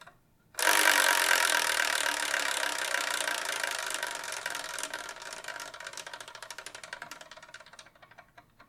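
A spinning prize wheel picking the next manga to review whirs with rapid ticking that thins out and slows to sparse, separate clicks, fading out over about eight seconds.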